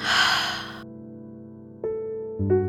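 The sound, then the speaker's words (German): A slow, deep exhale during a guided breathing exercise, one soft breath out lasting under a second, followed by quiet sustained musical tones. “Noch einmal tief einatmen. Und wieder ausatmen.”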